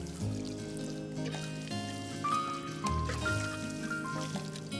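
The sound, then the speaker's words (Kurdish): Water pours and trickles steadily as plants are watered in a cartoon, a continuous bubbling flow with bright tonal ripples throughout. “بەم شێوەیە کایۆ بۆ ماڵەکە گەڕا بۆ ئەوەی لەگەڵ داکی ڕۆکەکان ئاو بن”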